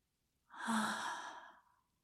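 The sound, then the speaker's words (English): A deep breath is exhaled through the mouth during a guided breathing exercise: a single soft, airy rush of breath lasting just over a second, heard alone without talk. “take a deep breath in through your nose. Hold it and exhale through your mouth.”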